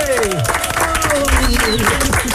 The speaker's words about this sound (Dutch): Nog één groot applaus